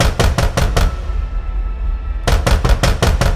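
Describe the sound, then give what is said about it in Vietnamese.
Knocking on a door: two quick series of sharp, loud raps, each of about five to seven knocks, separated by a pause of over a second filled with a low hum. “Đang nằm, đang chịu đựng, thì con nhỏ này nó tới nó gõ cửa.”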